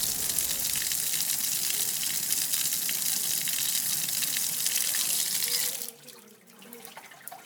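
Water splashes steadily from an old town fountain dating from the sixteenth century, once fitted with two large spouts and a livestock trough. A loud, even rush of water runs without a break, then drops abruptly to a much quieter trickle near the end.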